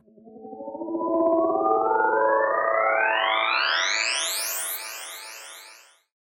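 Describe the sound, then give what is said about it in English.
An electronic sweep effect in a music track, used to mark a change from one section of the arrangement to the next. A buzzy, harmonic-rich synth tone swells in and climbs steadily in pitch for about six seconds, then cuts off. “I used a fun electronic sweep sound to create variety in this track and to announce changes in the arrangement from like an A section to a B section.”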